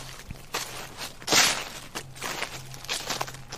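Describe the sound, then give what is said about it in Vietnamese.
Footsteps rustle and crunch over dry medicinal leaves spread out to dry in a yard, a run of hurried, scratchy steps with one louder crunch near the middle. “tiếng bước chân sột soạt dẫm lên đám lá thuốc khô mà mẹ cô phơi ở ngoài”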